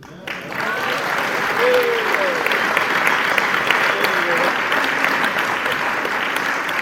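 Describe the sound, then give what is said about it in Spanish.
Audience applause for dancers at a live event, a dense, sustained clapping that holds steady throughout, with a few voices faintly rising above it at moments. “También un aplauso, ya que estamos en eso, para las meninas.”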